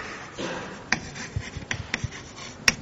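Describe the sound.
Scratchy drawing strokes on a board as two small rollers are sketched for a technical explanation; faint, irregular rubbing with a few sharper ticks, and no talk.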